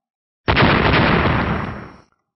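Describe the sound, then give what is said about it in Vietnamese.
An explosion from glowing golden orbs of light bursting apart: one sudden, loud, rumbling blast that holds for about a second and a half, then fades out. “Theo sát ở phía sau, bảy cục sáng kim sắc ầm ầm nổ tung”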